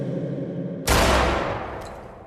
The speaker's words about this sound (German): Komm schnell, die schießen, komm schnell.